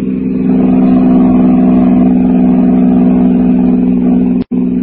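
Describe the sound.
A taxi cab's engine drones loudly and steadily as the car drives off, with a brief cutout just before the end.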